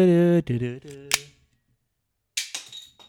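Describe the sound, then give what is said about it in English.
A sharp gunshot crack as a gun is fired at a can, coming right after a man talking, followed a moment later by a short, bright, noisy burst that fades out. “Try and shoot that can then.”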